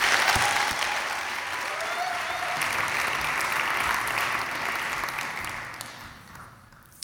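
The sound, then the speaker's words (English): An audience at Hope College applauds to welcome a speaker at a Veritas Forum evening. The applause is a steady, full roar of many clapping hands that holds for several seconds, then thins and fades toward the end. “Would you please give a warm Hope College welcome to Ruth Padilla DeBorst.”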